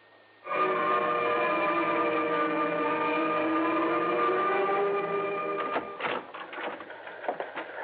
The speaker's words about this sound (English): I've been staring at that teletype machine out there until I can't see straight. Still no word.